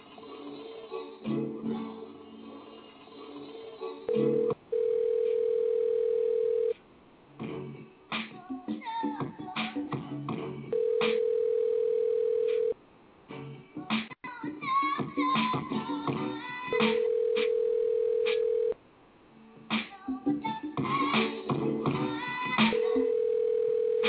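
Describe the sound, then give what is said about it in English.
A steady telephone tone as a call is dialed out during a show, sounding as a flat, level hum in three separate stretches between busier passages of other sound. “Let me try this one. Right. This is my favorite part of the show, man, when I get to do this. All right. Dialing out.”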